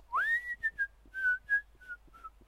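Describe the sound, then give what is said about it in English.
Someone whistling a tune, faint and alone: a quick upward swoop, then a string of short notes stepping gently down in pitch. “Joey was just whistling”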